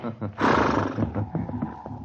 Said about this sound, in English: Hey, what's the matter with that horse? He's gone loco. That old mare threw her in that snowbank.